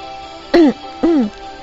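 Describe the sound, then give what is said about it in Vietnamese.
Two dry, throaty coughs ring out from behind someone at an office desk. They are short, voiced bursts about half a second apart, clear against a quiet background. “bỗng nhiên sau lưng vang lên tiếng ho khan.”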